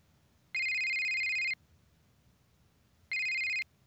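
A telephone rings while someone is being called: two steady electronic ring bursts of about a second each, separated by a longer pause, fairly faint over a quiet background.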